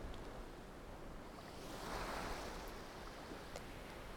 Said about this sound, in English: A wave washes over the sand towards you and touches your toes before receding back.